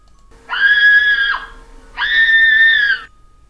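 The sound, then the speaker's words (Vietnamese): Two loud, sustained, high-pitched screams of terror ring out in a morgue. Each cry lasts about a second, with a short pause between them, over a faint steady hum. “Tiếng hét sợ hãi vang lên, vọng khắp nhà xác.”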